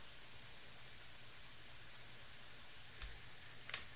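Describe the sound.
Mouse clicks on a create button in software, heard as two faint, sharp clicks near the end over a steady soft hiss.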